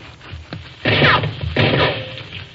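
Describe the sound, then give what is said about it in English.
Rifle shots ring out as sound effects in a radio western drama. Two loud, harsh cracks burst out about a second apart, after a fainter thump. “Who's ever shooting that rifle sure knows what he's doing.”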